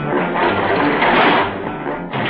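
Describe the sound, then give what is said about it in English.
A radio-drama effect of a high-speed elevator descending 1,000 feet below the surface: a loud, steady, rushing whir that holds evenly, then dips briefly near the end. “Stepping into a high-speed elevator, the three scientists descend swiftly, 1,000 feet below the surface.”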